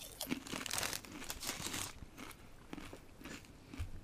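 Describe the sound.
Crisps and peanuts crunch as someone chews them with the mouth shut, giving a run of crackly, brittle bites and grinding that are fairly quiet, with no talk over them.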